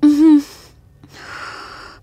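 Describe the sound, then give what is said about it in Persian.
Breathing in and out during a guided breathing exercise: a brief voiced gasp, then a longer, soft, airy rush of breath. The breaths are moderately loud and no words are spoken. “دم، بازدم. دم، بازدم.”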